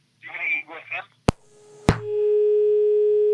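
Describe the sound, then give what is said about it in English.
Dial tone after a radio phone-in caller's line drops: a voice speaks briefly, two sharp clicks follow, then a steady continuous tone sounds alone until the end. “We lost the caller again. You can keep trying.”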